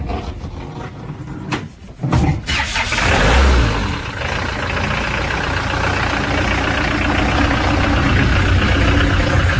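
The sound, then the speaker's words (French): An old gendarmerie van's engine cranks briefly and catches, then settles into a steady, loud rumbling idle. “On va à la maison d'un coup de camionnette de gendarmerie, là, vite fait.”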